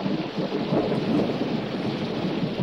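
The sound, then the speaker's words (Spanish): Steady rain pours down in a continuous, dense hiss that holds an even loudness from start to finish, with no voices or other distinct sounds standing out. “Llueve. Es cierto.”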